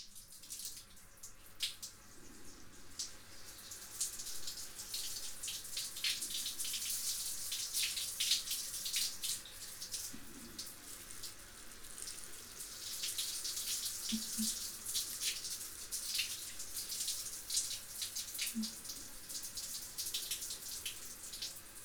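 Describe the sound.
Water runs steadily while shampoo is rinsed out of hair. It makes a continuous, soft, even hiss with small splashy variations and no talk.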